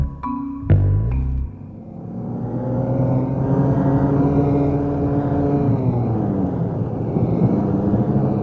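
A car drives fast along a country road, its engine a steady, even drone after a few short thumps at the start.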